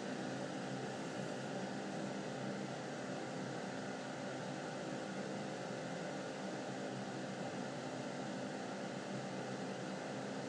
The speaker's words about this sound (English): Got like a fan in the elevator.